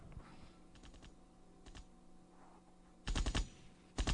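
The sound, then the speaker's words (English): Weapon sound effects play from a TV at low level: light, scattered clicks at first, then two louder rattling bursts like rapid gunfire near the end. “Weapon sounds. That's what you're doing?”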